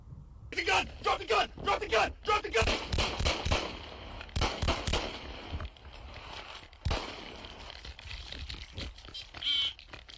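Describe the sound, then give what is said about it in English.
Gunshots fired by a police officer at an armed suspect stepping out of a stolen van after a pursuit, caught on a body cam: many sharp bangs in a fast string, then a lone later shot, with voices. “Body cam shows a Celine officer fired shots at an armed suspect exiting a stolen van after”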